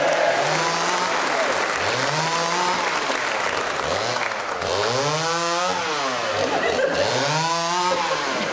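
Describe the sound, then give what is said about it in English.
A chainsaw cutting into a large block of wood, its motor surging in repeated revving bursts roughly once a second, loud and harsh throughout. “instead of the theme tune, I'm going to chainsaw this large block of wood into a sculpture of my predecessor, Miles Jupp, in which he is naked astride a rhinoceros.”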